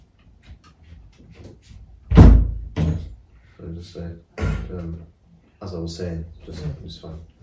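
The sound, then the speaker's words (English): A door being shut with a single loud, low thud, while people talk before and after it. “shut the door, please.”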